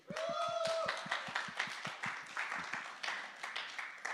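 Audience applause following a reading at a morning gathering, faint clapping from a small group with fairly even, quick beats that continue at a steady level.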